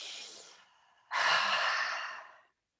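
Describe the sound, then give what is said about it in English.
A person takes a deep breath, heard as two airy breath sounds: a softer, fading one, then a brief pause, then a louder, longer whooshing breath that tapers off into silence. “Let's take a deep breath. Let's take a breath again”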